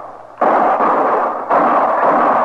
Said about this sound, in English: Start shooting